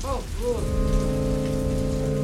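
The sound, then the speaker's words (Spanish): Heavy raindrops fall on narrow, uneven stone streets, a dense, continuous patter under sustained tonal music, with a brief wavering sound at the start. “Gruesas gotas de lluvia empiezan a caer del cielo.”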